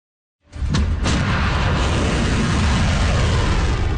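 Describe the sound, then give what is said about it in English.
A volley of Iranian ballistic missiles launches with a sudden loud roar that rises out of silence, with a couple of sharp cracks early on, then settles into a dense, sustained rumbling rush. “That is the sound of a volley of Iranian ballistic missiles.”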